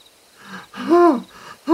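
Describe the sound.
A voice acts out asthmatic wheezing: a few strained, whistling breaths with a tonal, hooting edge. The middle breath is the loudest, and the last is cut short.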